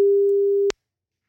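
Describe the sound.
A telephone call tone plays while a listener is being called for a radio call-in game. It is a single steady low tone, about two-thirds of a second long, that cuts off abruptly with a click into silence.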